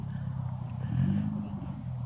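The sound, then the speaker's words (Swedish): A Saab car rolling in at a motorsport event, its engine a low, steady rumble that swells briefly around the middle before settling again. “Nästa bil på gång in redan här. Så nu är det någon som ligger lite hack i häl bak. En Saab som rullar in här.”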